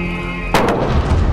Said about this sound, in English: These are shots being fired in Baghdad.